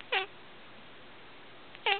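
Two short meows from a cat in a farm song, each brief and bright, separated by a long, near-silent gap with faint background hiss.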